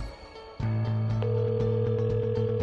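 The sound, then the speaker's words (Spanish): Telephone line tones from an outgoing call placed from a radio studio. A steady, loud tone starts after about half a second, and a second higher tone joins a moment later. Both hold continuously to the end, with no talk. “Estamos llamando a Alex García”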